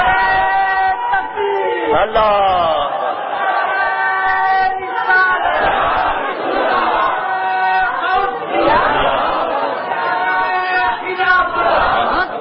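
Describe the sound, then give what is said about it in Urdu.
A large crowd chants a religious slogan in unison at a religious gathering. Loud, massed voices swell in sustained waves throughout. “اتنا بڑا مجمع اور اتنا ڈھیلا نعرہ, عجیب لوگ ہیں. نعرہ میری شان میں نہیں لگا, اللہ رسول کی کسی بات سے خوش ہوتے ہیں تو آپ ان کا نام لیتے ہیں. نعرہ ایسا لگے یہاں سے آواز مدینے جائے.”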